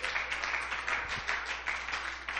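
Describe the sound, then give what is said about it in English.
A church audience clapping hands in praise: fast, even, rhythmic claps from many hands, continuous and steady throughout. “Why don't we give God a hand clap of praise?”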